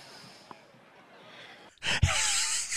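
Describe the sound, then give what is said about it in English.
A big breath is drawn: after a quiet stretch, a loud, airy, rushing gasp swells suddenly and lasts about a second to the end. “It's a big breath. I love the big breath.”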